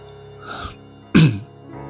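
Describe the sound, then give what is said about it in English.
A person clears their throat in one short, loud, rough burst, preceded by a softer breathy sound. “I cleared my throat and asked,”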